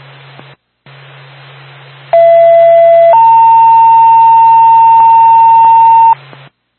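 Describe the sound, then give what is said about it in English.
Fire department dispatch alert tones for a smoke detector call: a loud two-tone page, a lower tone held about a second, then a higher tone held about three seconds, over steady radio hiss and a low hum. “Haverhill Fire Department, standby for tone.”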